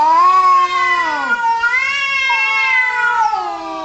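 A cat meows loudly in long, drawn-out, wavering cries that slide up and down in pitch, a few in close succession, with no voices around them.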